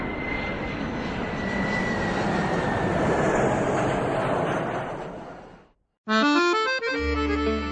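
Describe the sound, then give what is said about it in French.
An airplane engine drones steadily and loudly as the aircraft passes overhead, then fades out and is followed by a short burst of music. “Attends, regarde! Un avion!”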